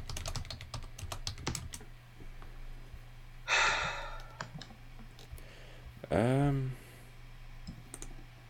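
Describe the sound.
Typing on a computer keyboard: a quick run of light, sharp clicks in the opening seconds, with sparse taps after that over a low steady hum.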